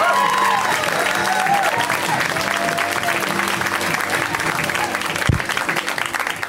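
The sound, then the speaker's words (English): Audience applause greeting a comedian as he walks out for a comedy set: a dense, steady wash of clapping that stays loud throughout, with a brief louder thump near the end. “Give it up for Solomon.”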